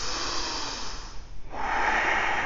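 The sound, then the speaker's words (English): Deep, lengthened breathing during a yoga session makes a steady airy hiss. It eases into a brief lull midway and then resumes as a fuller, slightly brighter breath. “It's definitely in there. Lengthen your breath.”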